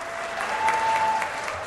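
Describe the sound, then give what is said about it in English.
State House members standing and applauding after a bill is voted down: a broad, steady wash of many hands clapping, swelling slightly in the middle and holding at a consistent moderate level. “When the bill was finally voted down, the House stood and clapped.”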